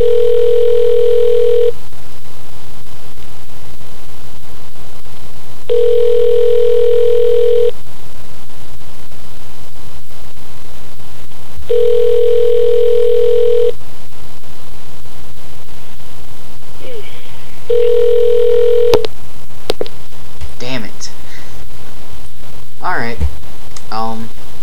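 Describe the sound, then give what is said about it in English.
Ringback of a call placed to a payphone: four long, steady buzzing rings separated by regular pauses, followed by clicks and crackling noise on the line. “I'll give it 3 more rings.”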